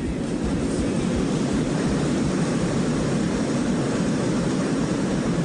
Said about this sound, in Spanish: Bueno, muchachos, ya vamos a despegar.